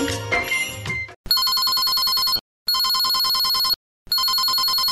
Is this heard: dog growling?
no